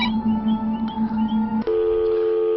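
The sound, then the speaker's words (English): Telephone dialing tones: steady electronic tones with a few brief breaks, then a switch to a different, higher pair of tones partway through. No other sound. “The telephone can do some interesting things. That is, if you dial the right number. And so let's try it out.”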